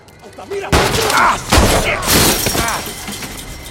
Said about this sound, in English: Bullets strike a dumpster nearby.